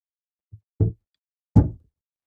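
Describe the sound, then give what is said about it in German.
A window is closed: a faint tap is followed by two dull, low thuds about three quarters of a second apart, then quiet. “Oh, warte mal, ich muss mal das Fenster hier zumachen.”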